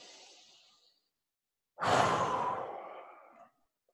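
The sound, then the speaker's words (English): A deep breath, heard as a faint breath at the start and then one long, steady exhalation, during a guided breathing exercise for centering oneself. No talk is heard. “Just take a couple breaths and center yourself.”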